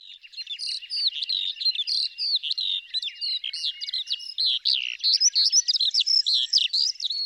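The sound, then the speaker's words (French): Eurasian skylark song: a rapid, continuous stream of high, twittering chirps and trills, busy and unbroken, with no other sounds. “Les campagnards l'auront certainement reconnu, le chant que je viens de vous partager est celui de l'Alouette des Champs.”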